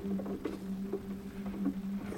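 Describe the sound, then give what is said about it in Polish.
Steady rain falling in a continuous, soft hissing patter, with a low, even hum running underneath throughout and no voices. “Głowa mnie boli od tego deszczu.”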